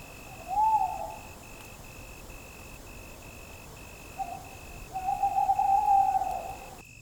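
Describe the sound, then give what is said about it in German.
A small owl hoots at night from a small pine forest in a heath: one short hoot, then after a pause a longer, wavering call, both over a faint steady background hiss. “Aus dem Wald ruft ein Käuzchen.”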